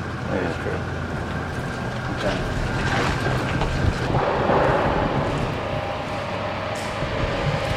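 Wind-making equipment blows with a steady, broad rushing roar and a faint constant hum beneath it. The level stays even from start to finish, with no clear breaks.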